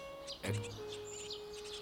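Great tits call from their nest, giving a few faint, high chirps and short twittering notes over a steady low hum.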